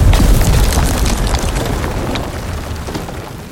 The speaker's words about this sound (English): The cabin was set to blow and threw me forward.